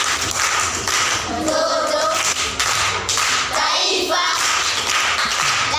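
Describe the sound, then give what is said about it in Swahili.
Clapping from a group at a school quiz session, a dense, continuous patter of many hands that lasts several seconds at a fairly even level. “Makofi kwa mjomba.”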